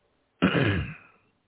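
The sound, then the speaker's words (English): A sudden choking cough and throat clearing comes as a single loud, rough burst that fades out in under a second, with silence on either side. “excuse me. Oh, great. I started choking for some reason.”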